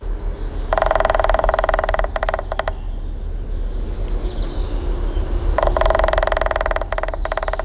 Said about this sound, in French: c'est bien un pivert qu'on a entendu, c'est même un mâle. Parce que s'il tape sur le tronc d'arbre pour produire le son qui a été diffusé, c'est pour marquer son territoire